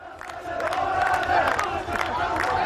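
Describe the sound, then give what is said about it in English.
A crowd roars and shouts as a statue of Saddam Hussein is pulled down by American soldiers in spring 2003, with a continuous, loud mass of cheering and yelling voices throughout. “It's an iconic scene from the spring of 2003. The statue of Saddam Hussein slowly being pulled down by American soldiers.”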